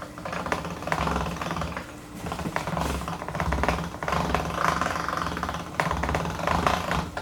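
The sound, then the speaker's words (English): Steady mechanical grinding and rattling from a noisy, old hand-cranked pasta machine as dough is rolled back through it, a continuous rough whirring clatter lasting throughout with no talking. “Yeah, this is a hand crank. If you think that's a motor, no, it's just a noisy thing.”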